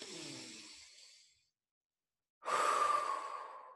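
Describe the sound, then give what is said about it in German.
Deep breathing in and out during a guided relaxation exercise: two long, soft, airy breaths separated by a short silence, the second one fuller and louder. “Atme 2-3 Mal tief ein und aus. Komm, das machen wir zusammen.”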